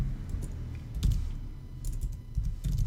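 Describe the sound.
Typing on a computer keyboard while writing code in a JSP file: irregular bursts of quick plastic key clicks with short pauses between runs, at a steady moderate level.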